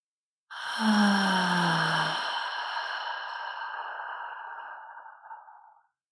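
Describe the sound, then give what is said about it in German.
A humming bee-breath exhale in yoga practice: one long, steady, low voiced hum, held for about five seconds and then fading away. “Dieses Mal atme noch einmal ein, vielleicht im Brahmari wieder aus.”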